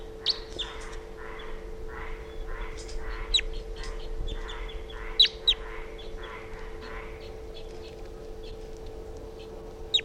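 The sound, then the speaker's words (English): A wild bird calls weakly in a faint series of evenly spaced chirps, with a few sharper tweets partway through, over a steady low hum. “Calling very weakly. Wild bird's flying now.”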